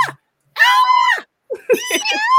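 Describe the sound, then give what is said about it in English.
A grown man squeals with excitement in loud, high-pitched vocal bursts. One drawn-out squeal is followed by a pause and then a second, wavering run of shrill, excited sounds. “Got a grown ass man squealing like that.”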